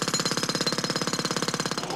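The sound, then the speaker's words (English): A road drill hammers seven metres away in a rapid, steady run of many evenly spaced blows, loud and continuous with no pauses or talk. “a road drill 7 metres away”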